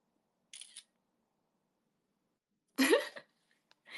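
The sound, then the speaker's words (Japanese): Camera shutter clicks as a photo is taken: two short mechanical snaps, a faint one followed by a louder, slightly longer one, with near silence between them. “ちょっと写真撮ろう。”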